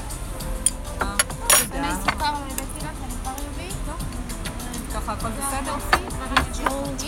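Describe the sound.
A spoon clinks against dishes in bright, irregular chimes, some ringing briefly, at a seaside spot in Bat Yam, while people talk and murmur underneath throughout.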